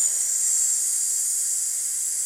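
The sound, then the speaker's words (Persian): A voice holds a long, steady 's' hiss as a breathing-control exercise for a child, sustained while a balloon drifts down; the bright, even sibilance stays unbroken and alone for the whole stretch. “تا زمانی که اون بادکنک برسه به زمین، این صدای سه باید به صورت ممتد پشت هم پیوسته گفته بشه”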